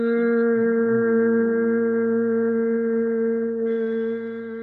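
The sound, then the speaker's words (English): Humming on an exhaled breath after a deep inhale: one steady, low tone held without a break for several seconds, easing slightly in loudness near the end. “taking a deep inhalation and humming on the exhalation. So we take a deep inhale, and then it will sound like,”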